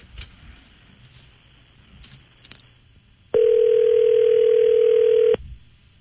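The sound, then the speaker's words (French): A telephone dial tone sounds while a number is being dialled: a loud, steady, unbroken tone lasting about two seconds over a faint background hiss. “Ça devrait sonner bien tôt. Oui, Luc est en train de composer.”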